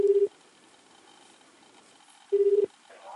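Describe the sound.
Telephone ringing tone on a call: two short, steady mid-pitched beeps spaced about two seconds apart, faint, with quiet line hiss between them.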